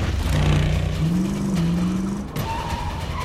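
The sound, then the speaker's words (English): A silver Chevrolet Camaro racing off: a loud engine drone climbs in pitch as it accelerates, with tire squeal, a brief dip, and then a higher engine tone. “He gets into the silver Camaro and throws it in reverse. Engaging forward gear, Danny races off.”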